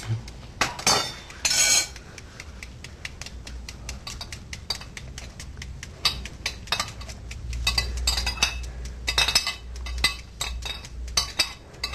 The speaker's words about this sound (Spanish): ¿qué te parece si tú empiezas a picar finito los cebollines y yo pico los pimentones? Pica los que te queden lo más fino posible.